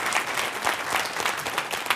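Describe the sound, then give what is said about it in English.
Hands clapping in steady, dense applause from an audience at a church class, with no single claps standing out. “Give Valerie a hand clap.”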